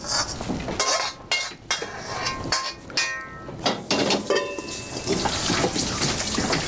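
Water running from a tap while someone washes their hands: a continuous splashing hiss with scattered light clinks of dishes and cutlery throughout.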